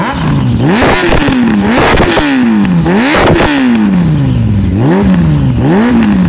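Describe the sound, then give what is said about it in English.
A classic Italian motorcycle's engine revs up and eases off several times on a ride through twisty roads on a sunny day. The engine is loud and continuous, and its pitch climbs sharply then sags back with each throttle cycle. “He saw it while browsing TradeMe, looking for a classic bike to add to his stable of Italian machines. We went out for a ride on a sunny day, taking in the twisties to the south of Rotorua”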